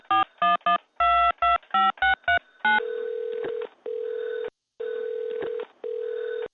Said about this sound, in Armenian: Արմենը հավաքում է ծառայության համարը։